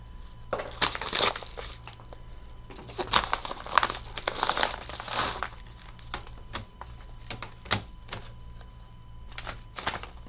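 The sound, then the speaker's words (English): A razor blade cuts open shrink-wrapped packaging on a set of three CDs, giving irregular bursts of crinkling, scratching and crackling plastic, fairly faint, over a low steady hum. “I'm going to have to break out the razor blade for this one. I don't want to cut my finger off.”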